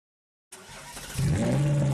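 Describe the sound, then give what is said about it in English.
A crimson Ferrari sports car engine starts on the street and catches with a sudden burst, then swells into a louder, deeper rev with a strong droning tone. “Start up your crimson Ferrari on the street and watch the heads turn.”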